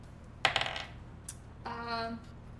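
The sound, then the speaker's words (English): Dice rolling on a table during a tabletop role-playing game: a quick rattling clatter that tapers off, followed by a single light click a moment later. “Hey, take those dice away from her. I like when she rolls bad.”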